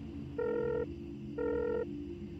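A telephone ringback tone plays as a call is placed: two identical steady electronic tones, each about half a second long, separated by a pause, over a low background hum.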